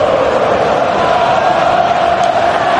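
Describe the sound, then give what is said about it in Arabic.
Dense, continuous roar of Argentina supporters in a football stadium during a match against Egypt, loud and steady from start to finish with no clear breaks. “جمهور ايه؟ جمهور الارجنتين يعني له حضوره في البطولات وله تواجده في البطولات.”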